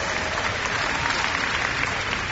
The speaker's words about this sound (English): you cheered, and I thank you.